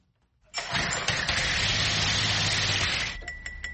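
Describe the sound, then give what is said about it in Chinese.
An engine starts up after oil is added to it and runs steadily for about two and a half seconds. It then cuts out, leaving a few light clinks. “我们往里面放一点油，看看能不能启动。”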